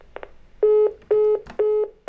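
A telephone disconnect tone plays on a line that ends after an automated message. Three loud, steady, evenly spaced beeps, each about a quarter second long, follow a couple of short, faint blips.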